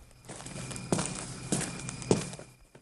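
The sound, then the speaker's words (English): A chauffeur's footsteps sound as he walks away from a limousine at night: three heavy, evenly spaced steps over a soft background hiss. “The chauffeur closes the door, then walks away.”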